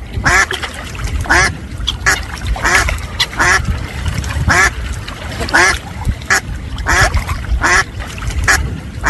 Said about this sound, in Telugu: బాతులు తెల్లగా అందంగా ఉన్నాయి కదండి. అవును, ఈ బాతులు ఇంత పెద్దగా ఉన్నాయేంటండి?